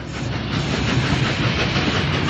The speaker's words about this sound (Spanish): El tren se detiene.